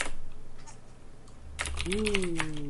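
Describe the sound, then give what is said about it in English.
Keyboard typing while entering a message in a game's text chat: a short burst of quick, crisp key clicks in the second half, following a quieter stretch with a low steady hum. “So now type something in chat. Go to the slash chat.”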